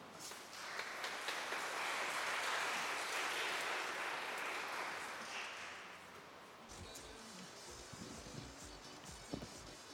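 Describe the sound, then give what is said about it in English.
Audience applause welcoming two performers, a steady wash of many hands clapping that holds for several seconds and then thins out. The applause stays faint overall. “Please give a warm welcome to Rena Del Cid and Tony.”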